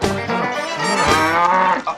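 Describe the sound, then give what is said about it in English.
A cow moos loudly in a video game barn scene as it is milked, a drawn-out, rich, harmonic low call that fills about two seconds without pause. “He tries to milk the cow.”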